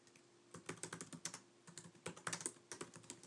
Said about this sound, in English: Okay, and then I'm going to type the same command here.